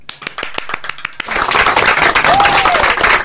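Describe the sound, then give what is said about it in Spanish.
An audience applauds: a few scattered, sharp claps build into dense, loud, steady clapping from the crowd, which carries on to the end. “Un aplauso.”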